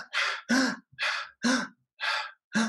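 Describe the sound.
Slow, deliberate breathing demonstrated by a person: six audible breaths in a steady rhythm, airy inhales alternating with longer, partly voiced sighing exhales, with no words.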